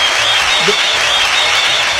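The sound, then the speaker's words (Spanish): Canned applause plays as a sound effect on a radio program, a loud, dense and unbroken sheet of clapping. “¿Tienen los aplausos ahí? Sí, ¿cómo no va a tener los aplausos? Los tiene, pero ahí.”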